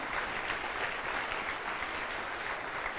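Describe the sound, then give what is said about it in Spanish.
Audience applause welcoming first-time guests at a gathering: steady, faint clapping from many hands, continuous and even throughout with no talking over it. “vamos a darles una bienvenida con un aplauso a todos”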